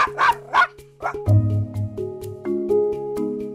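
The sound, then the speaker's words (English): Dogs barking, a large St. Bernard and a small Chihuahua: a few sharp barks at first, then lower and higher yaps and whimpers over a steady tonal background. “the vocal quality of the barks easily gives away the size of the dog. The lower-pitched dog is a large St. Bernard, while high-pitched Fido is a small Chihuahua.”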